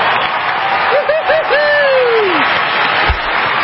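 Applause from a live studio audience, a continuous wash of clapping at steady loudness for over three seconds, with a few short tonal chirps sounding above it.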